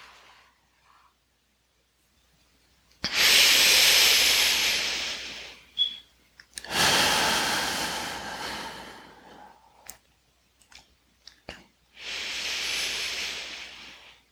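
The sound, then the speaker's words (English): Long, forceful exhales during a guided breathing meditation: three loud, breathy rushes of air, each lasting a couple of seconds, separated by quieter gaps. “And really squeezing out every last molecule, continuing your exhale. One, push it out.”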